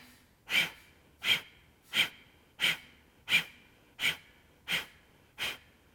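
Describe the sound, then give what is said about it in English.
Eight forceful breath exhalations in a pranayama breathing exercise, each pushed out from the abdomen as a short, breathy hiss. They come in an even rhythm about every 0.7 seconds, fairly quiet, with no talk. “Deep inhale through the nose. Now throw the breath out.”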